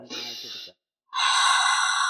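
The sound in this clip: A deep breath drawn in during a breathing exercise: a short breathy, voiced exhale, a brief silence, then a long, loud, airy hiss of inhalation.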